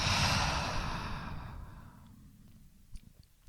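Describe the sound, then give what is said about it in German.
Deep breath drawn in and let out by a person lying on the floor during a guided relaxation exercise, a loud, airy rush that fades gradually to near silence. “Zweimal mehr ganz tief ein und alles aus. Ein letztes Mal atme ein und aus.”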